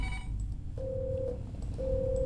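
A telephone line rings twice before the call is picked up on a dangdut music call-in show: two long, steady mid-pitched tones separated by a short pause, over a constant low rumble.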